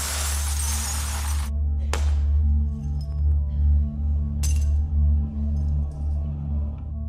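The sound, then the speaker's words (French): Glass bottles in bags being smashed by hand as part of a game, with a few loud, sharp shattering crashes over a steady low hum. “J'ai mis une bouteille dans un sac. Le but du jeu va être d'écraser les autres sacs avec sa main.”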